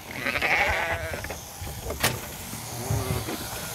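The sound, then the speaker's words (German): Norwegian fjord sheep bleat during their yearly shearing. A few short, nasal bleats rise over steady mechanical buzzing and scattered clatter. “Einmal im Jahr müssen die norwegischen Fjordschafe geschoren werden.”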